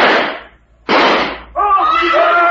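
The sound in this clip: Two gunshots ring out about a second apart, each a loud, sharp bang with a trailing decay. A voice follows right after the second shot.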